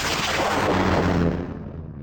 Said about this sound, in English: Launching probe two.